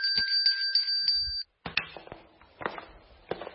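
Bell ringing, with bright, high metallic tones struck in quick repeated bursts for about a second and a half, then a short pause and several scattered clattering knocks and rattles.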